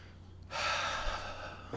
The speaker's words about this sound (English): Nice deep breath.